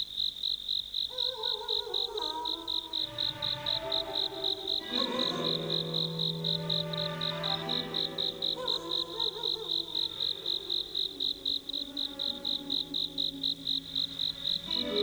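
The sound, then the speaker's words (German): A cricket chirping on a warm summer night, with rapid, regular high-pitched pulses repeating evenly throughout, set over soft melodic background music. “Die Nacht war sommerlich warm. Ganz in der Nähe zirpte eine Grille.”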